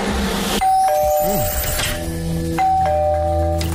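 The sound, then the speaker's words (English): A doorbell chimes a two-tone ding-dong twice, each pair a higher note followed by a lower one, ringing clearly over a busy, noisy background. “And this is what the doorbell sounds like.”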